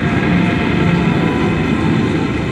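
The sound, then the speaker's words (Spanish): An airplane departs from an airport at night: a loud, dense roar with a heavy low rumble that holds at a steady level throughout, with no voices. “Partió el avión.”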